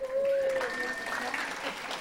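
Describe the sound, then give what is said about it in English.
Applause from a group clapping to welcome a person being introduced, a short burst of dense clapping with a high voice calling out over it. “everybody clap for Melissa.”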